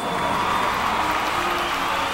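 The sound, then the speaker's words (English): A lively crowd cheers and applauds in a steady, dense roar that holds at an even level throughout. “Wonderful. I love a lively crowd.”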